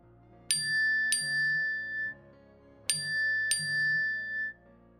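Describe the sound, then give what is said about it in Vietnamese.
A phone's text message notification tone rings out as a bright two-note chime, heard twice in a row: four clear ringing strikes in two pairs separated by a short gap, sounding alone. “Âm báo tin nhắn vang lên”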